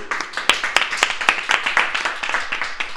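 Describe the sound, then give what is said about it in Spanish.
Applause after a carnival song: many quick, crisp claps in a steady, continuous patter lasting a few seconds, with no voices over it. “¡Un aplauso!”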